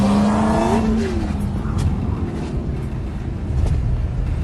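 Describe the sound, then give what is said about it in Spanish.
A Porsche and a motorcycle racing on a highway: a loud engine note climbs at the start, then gives way to a sustained, rushing roar of engine and road noise. “Vea la carrera entre un Porsche y una moto en el desastroso resultado. Se encontraron en medio de la autopista y ahí improvisaron una carrera.”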